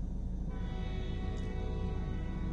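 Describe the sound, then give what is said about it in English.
A train passing outside a window gives a steady low rumble with a sustained tonal hum running through it, even in loudness from start to finish, with no talking. “That's the train. You can hear the train.”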